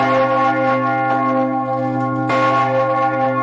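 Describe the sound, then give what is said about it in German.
Lausanne's city alarm bell rings in an emergency pattern, each loud, deep stroke blooming into a long, sustained metallic hum that overlaps the next strike. “zusätzlich die Alarmglocke der Stadt geläutet, die Clémence. Das ist so ein altbewährter Nottakt hier, in dem die Clémence gebimmelt wird.”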